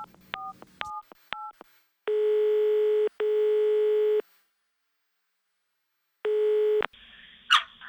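Telephone keypad tones and ringback as a call is placed: several quick beeps of dialing, then three long, steady electronic ringing tones with a gap before the last, shorter one, ending in a short burst of noise.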